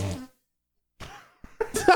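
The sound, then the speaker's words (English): Armpit farts made by hand, a few short, squelchy, flatulent bursts separated by silence, growing busier and louder toward the end. “We armpit farted. We farted the entire time.”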